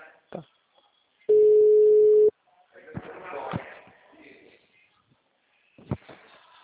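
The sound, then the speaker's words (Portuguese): A telephone ringback tone from an outgoing call sounds as one steady, mid-pitched tone lasting about a second, loud against quiet surroundings, followed by faint muffled noises and clicks. “Agora tá chamando.”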